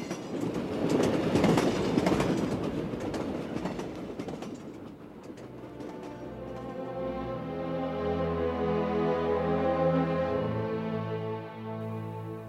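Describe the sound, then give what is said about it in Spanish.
A train on the Brittany line runs along the rails with a steady rumble and faint clickety-clack, then settles into a sustained tonal hum and whine as it rolls on. “el tren de la línea de Bretaña me llevaba hacia el pueblo de Saint-Maur”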